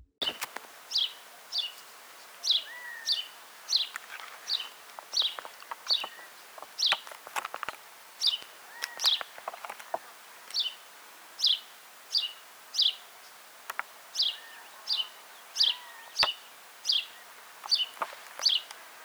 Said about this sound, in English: take a moment to look around for this sparrow. So many people, especially in the U.S., see this bird as a pest because they were introduced to our continent and take resources from our native species.